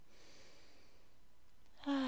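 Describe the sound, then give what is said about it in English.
Slow inhale through the nose during a guided breathing exercise: a steady, soft, airy hiss lasting almost two seconds, with a voice starting briefly at the very end. “just inhaling for the count of four and then exhaling twice as long through your mouth. That would be for a count of eight. Inhale through your nose.”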